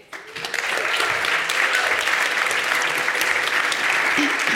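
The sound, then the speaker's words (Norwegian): An audience at a live stage event applauds a speaker being welcomed on stage. The clapping swells in after a brief quiet moment and continues as a dense, steady wash of many hands. “Var næringslivet like raske til å applaudere som i går?”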